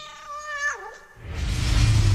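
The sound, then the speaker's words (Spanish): A cat meows once, a mid-pitched drawn-out meow whose tone bends upward and then drops, followed by a burst of loud, broad hissing noise. “Calma, calma, lindo gatito.”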